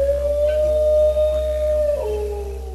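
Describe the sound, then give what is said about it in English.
A dingo gives one long, sustained howl, holding a steady mid-pitched tone before dropping lower near the end, over a constant low hum. “From the squeaks and grunts of the koala to the barks and howls of the dingo.”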